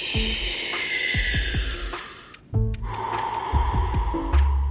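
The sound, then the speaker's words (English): Forceful, rhythmic breathing from an energising breathwork session: a steady series of sharp, hissing inhales and exhales, some snort-like, broken by one short pause partway through before the pattern resumes. “Get the air in. Let it out. Keep it up.”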